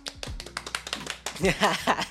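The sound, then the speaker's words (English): A few people clap briefly in scattered, uneven slaps, and voices follow right after. “Everybody clap.”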